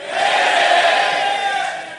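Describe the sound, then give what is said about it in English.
An audience yells an answer together on a count of three, a loud burst of mixed shouting voices that swells quickly, holds, and tapers off toward the end. “On the count of three, I want you to yell whether you think it's panic or patience. One, two, three.”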